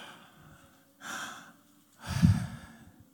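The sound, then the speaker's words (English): Mouth breathing, as when lying in bed at night, shown as two audible breaths through an open mouth; the second is louder and longer, with a sighing quality. “if you breathe through your mouth, when you're lying on your bed at night, you do this.”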